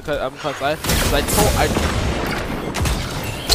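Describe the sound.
Gunfire from the video game Destiny 2 comes as a few loud, booming blasts with noisy tails, following a brief stretch of someone talking.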